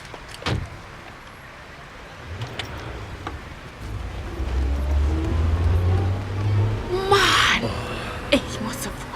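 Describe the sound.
A car drives away, its low engine rumble rising and holding steady for several seconds, with a brief hissing burst and a few sharp clicks around it.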